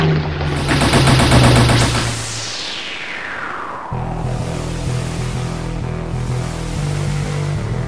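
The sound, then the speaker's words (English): Machine gun fire from a strafing run: a rapid, loud burst of repeated shots over a roaring engine whose pitch sweeps sharply downward, then a lower steady rumble carries on alone. “It's definitely coming at us. It's preparing to make a strafing run.”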